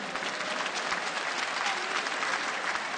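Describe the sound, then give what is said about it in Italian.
Applause from a crowd honouring everyone named Antonio on the feast of Saint Anthony of Padua, a steady, even clatter of many hands that lasts throughout. “Un applauso a tutti gli Antoni,”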